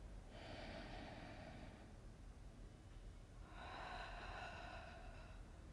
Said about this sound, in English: Let's begin with a deep breath.